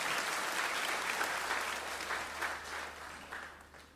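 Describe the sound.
A church audience claps its hands in praise, a dense, steady applause that stays even and fairly soft, then eases off slightly toward the end.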